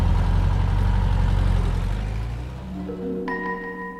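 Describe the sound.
A car engine runs with a loud, deep, steady rumble as the car pulls away toward the town hall registry office; the rumble eases and quiets after about two seconds.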